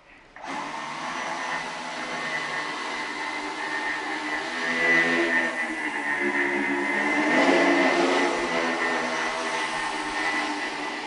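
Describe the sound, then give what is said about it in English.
A high-performance quadrocopter made of two joined two-propeller flying machines, one spinning clockwise and one counterclockwise, whirs in flight with a steady buzzing drone of propellers and motors, growing somewhat louder midway and holding without talk. “This machine over here is actually two separate two propeller flying machines. This one wants to spin clockwise, this other one wants to spin counterclockwise. When you put them together, they behave like one high performance quadrocopter.”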